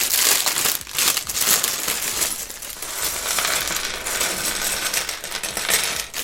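A plastic bag, numbered 19 of a building set and holding small parts, is opened with loud, continuous crinkling and crumpling, mixed with small hard clicks and rattles.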